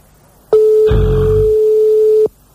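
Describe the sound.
A telephone signal tone sounds on the line during a prank call on French radio. One steady, loud, mid-pitched tone lasts nearly two seconds before cutting off, with a brief low rumbling noise over its first part.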